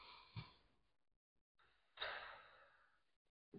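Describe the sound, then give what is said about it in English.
Faint breathing as a person draws a deep breath in through the nose and lets it out through the mouth: a short airy puff, then a longer drawn-out rush of breath, both soft and alone. “we're going to take a deep breath in through our nose and out through our mouth. Let's just do 3 of those. In.”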